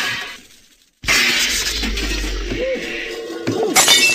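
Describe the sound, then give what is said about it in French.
Large shop window glass shattering: after near silence, a sudden loud crash bursts out and turns into a sustained rush of breaking, scattering glass, with another sharp burst near the end. “alors que j'étais assis tranquillement derrière mon bureau, la grande vitrine vole en éclats.”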